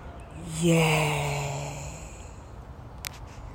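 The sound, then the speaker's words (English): A deep breath is released as a long, voiced sigh during a guided breathing meditation. The soft tone drifts slightly downward and fades slowly, and a faint click follows later. “Deep breath.”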